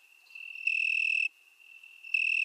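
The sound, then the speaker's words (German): An Italian tree cricket (Oecanthus pellucens), a small blossom cricket, keeps up a thin, high-pitched trill. It swells twice into louder, fuller bursts and eases back between them. “Das Weinhähnchen ist eine kleine Blütengrillenart und ist eigentlich von Aussehen her ganz unscheinbar.”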